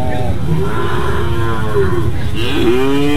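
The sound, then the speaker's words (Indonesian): Cattle mooing at a market selling cattle for sacrifice: a long, loud, low moo that wavers in pitch, with another call starting near the end and faint voices underneath. “Harga sapinya ini yang dijual itu sapi kurban atau campur yang di sini campur.”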